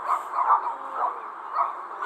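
Dogs barking at a home, a run of a few yappy, yelping barks repeating at a steady pace, fairly bright and moderately loud, with no voices.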